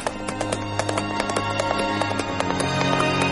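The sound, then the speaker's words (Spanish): A horse galloping at full speed in a Western, its hooves pounding in a rapid, driving clip-clop that stays loud and continuous throughout. “Luego James galopa a toda velocidad hasta que el caballo no puede más y se cae al suelo.”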